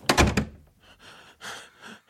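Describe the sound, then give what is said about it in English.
A door shuts with a heavy thump at the start, followed by a few softer, quieter noises. “Who closed the door?”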